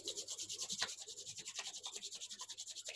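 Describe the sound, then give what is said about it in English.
Palms rubbing together, many quick, even back-and-forth strokes making a faint, steady, rhythmic swishing. “If you want to rub your palms together,”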